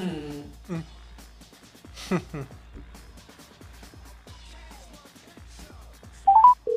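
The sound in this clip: A telephone number is dialed: a few short, bright keypad beeps come at the very end, after a stretch of people talking.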